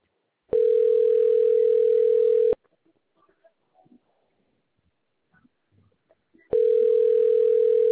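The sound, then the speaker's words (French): Ringing tone on a customer-service line while a call is connected to an advisor: two loud, steady tones of about two seconds, separated by a long near-silent gap with faint clicks, the second tone cut off at the end. “Votre numéro de contrat a été trouvé. Patientez, nous allons vous mettre en relation avec un conseiller.”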